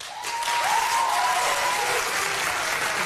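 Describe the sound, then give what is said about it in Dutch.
An audience applauds during a political debate, the loudest applause of the session. A dense, steady wash of clapping holds at high level throughout. “Dit was echt het... Dit was het luidste applaus eigenlijk van het hele debat van anderhalf uur.”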